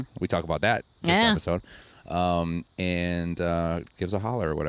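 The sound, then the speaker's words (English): Cicadas drone outdoors as a steady, high-pitched buzz that runs unbroken through the whole stretch, sitting faintly beneath people talking and murmuring agreement. “We are also outside, so you're going to hear some cicadas in the background.”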